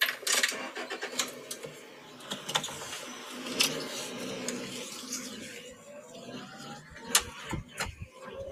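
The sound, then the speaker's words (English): A car engine runs steadily as a family drives to a puppet show. It makes a low rumbling hum with scattered clicks and knocks over it, and no voices are heard. “I know, mom, Ryan said, driving on their way to the puppet show.”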